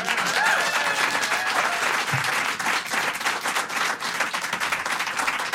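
An audience applauding as a live artist is introduced at an intimate studio concert: loud, continuous, densely packed clapping that holds steady throughout.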